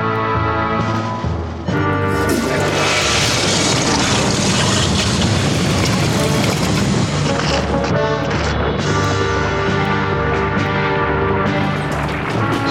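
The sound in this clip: A spaceship's rocket engine roars in an audio drama, a biorocket made from recycled matter flying to the moon. A loud, constant rumbling roar with droning tones lasts the whole time, dipping briefly near the start and then swelling back.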